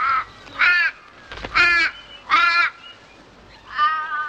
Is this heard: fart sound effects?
no